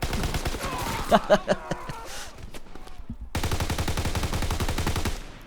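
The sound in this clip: Shotgun fire in the PC port of a video game: a rapid run of sharp, cracking blasts in quick bursts. After a short lull, a steady stream of repeated shots continues to the end.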